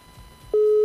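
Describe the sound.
A telephone ringing tone, heard while calling someone: faint background noise gives way to a single steady, mid-pitched tone that starts abruptly just past halfway and holds evenly loud to the end.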